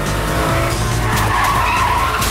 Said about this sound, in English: Stan swerves violently to avoid hitting a truck. Debris flies into the black car's windshield.